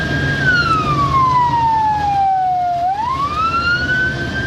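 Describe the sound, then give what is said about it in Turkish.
Ambulance siren speeding through a traffic corridor: one loud, slow wail that glides down in pitch, then sweeps back up, over a low rumble. “Ambulans oluşturulan koridordan hızla geçerek vakaya doğru yol aldı.”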